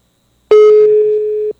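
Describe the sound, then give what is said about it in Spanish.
A single ringback tone from an outgoing telephone call that goes unanswered: one steady, mid-pitched electronic tone lasting about a second, heard alone. “Está marcando y luego no contesta.”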